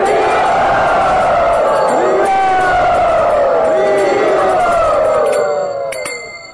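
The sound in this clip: Loud crowd cheering and whooping welcomes a guest at a yatra gathering. Many voices hold sustained, wavering cries, and the noise stays steady before fading at the end.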